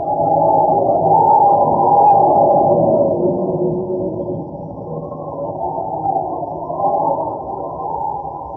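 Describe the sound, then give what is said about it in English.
A blizzard wind howls as a low, muffled moaning roar that swells and eases, alone with no voices. “I've never seen such a blizzard, Jerry. It's a real howler. Certain suicide to be out in a night like this.”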